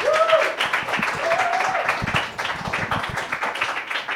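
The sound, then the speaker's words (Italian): Audience applause fills a comedy night show, a dense, steady wash of clapping that runs through the whole stretch without a break. “Grande applauso, Max Samaritan”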